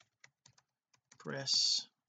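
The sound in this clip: Keys tapped on a computer keyboard, a few sparse, faint clicks spaced apart, followed by a short spoken phrase.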